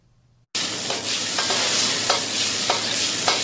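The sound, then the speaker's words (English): Stir-fry tossed in a wok over a high, red-hot flame in a hot restaurant kitchen. A loud, continuous sizzle starts abruptly after a moment of silence, broken by several regular bursts as the food is flipped. “A red-hot fire leaps from the wok. The chef keeps flipping the stir-fry.”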